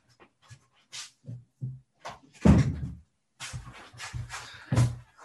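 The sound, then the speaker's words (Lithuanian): An auditorium door swings shut with one heavy, loud thump midway, surrounded by a few softer knocks and shuffling bumps. “Aš biškį uždarysiu auditorijos duris, nes atrodo grįžta kai kurie šeimos nariai.”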